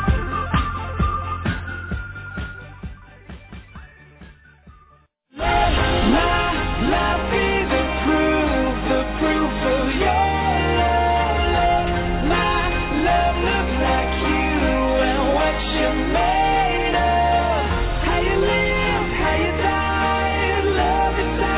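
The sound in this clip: A full-band song by a Christian band plays on the radio: the tail of a fading passage cuts off abruptly around five seconds, and a dense, loud arrangement with steady drums and vocals follows.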